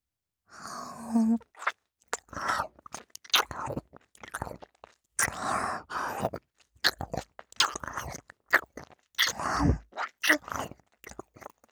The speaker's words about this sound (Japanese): 少しずつ丁寧に味わっていくことにしましょう。まずは甘噛みから。